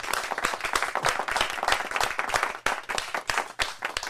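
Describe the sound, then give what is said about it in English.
Audience applause: dense, rapid clapping from a crowd welcoming a guest, loud and steady for about four seconds with a brief dip partway through. “a big round of applause”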